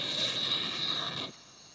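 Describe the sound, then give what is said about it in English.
Insects trill at night over moonlit, bleached open ground. A steady high-pitched buzz rides over a soft hiss, then cuts off abruptly after a little over a second. “The knife opens a second sky where the moon glares down onto a bleached bone-white ground and insects trill.”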